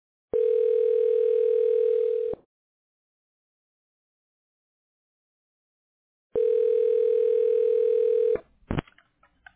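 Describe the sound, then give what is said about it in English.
Telephone dialing during a call to a hospital line: a loud, steady dial tone plays for about two seconds and then stops. After a silent gap the tone returns and breaks into a short run of quick dialing tones. “Dialing.”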